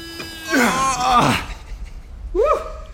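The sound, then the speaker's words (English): Voices imitating the strenuous effort of two people climbing: long, strained groans with wavering pitch, then a shorter effortful cry that rises near the end. “Can you do a bit of sound of strenuous activity? We're both climbing, mate.”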